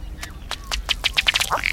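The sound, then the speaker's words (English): Male pudgy little ducks with long raised tails and horn-like head feathers call during courtship on a warm, weedy breeding lake in the western interior: a quick series of short, sharp quacking notes, loud and tightly spaced, crowding together toward the end. “When the sexes meet on the breeding grounds, usually a warm, weedy lake in the western interior, the males of these pudgy little ducks get right to strutting their stuff.”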